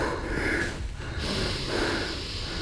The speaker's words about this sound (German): Wir atmen in den Bauch.